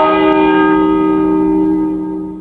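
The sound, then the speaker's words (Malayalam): Church bell striking two o'clock, heard here as one sustained strike with a rich, humming metallic ring that slowly decays, with no voices. “പള്ളി 2 മണി കൊട്ടിക്കഴിഞ്ഞു.”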